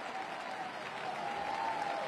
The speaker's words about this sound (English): Carolina's got a 5-0 lead, and this crowd is on fire.